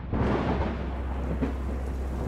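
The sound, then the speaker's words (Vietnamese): Heavy rain pours down in the middle of the night, a dense, steady hissing roar with a strong low rumble underneath, constant and unbroken with no voices. “Nửa đêm hôm ấy trời đổ một trận mưa to.”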